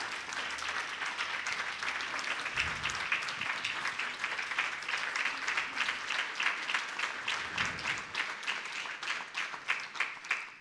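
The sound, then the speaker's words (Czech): Sustained applause from an audience during a flower garland offering at a devotional gathering: dense, steady clapping throughout, with sharper individual claps standing out toward the end. “Jako znak naší odanosti s velkým potleskem předejme málu s vámi Avatar Purijimu.”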